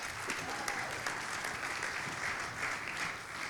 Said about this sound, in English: Hey, real quick, can we give a hand to the band? They did an incredible job.